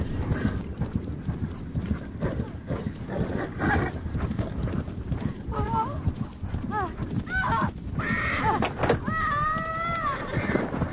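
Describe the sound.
A horse gallops at speed with a woman riding during a film stunt scene, its rapid hoofbeats pounding continuously throughout, while several high whinnies break out over the hooves toward the end.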